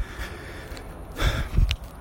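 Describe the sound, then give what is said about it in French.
Heavy, breathy panting from someone walking briskly, with a couple of louder airy gusts of breath rising above a steady noisy background. “Je souffle. Bah oui, parce que c'est de la marche active que je fais.”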